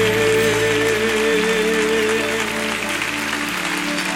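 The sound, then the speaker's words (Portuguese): A church audience applauds in steady, dense clapping, with sustained tones running beneath the applause throughout. “Aplauda mais forte do que isso, meu amado.”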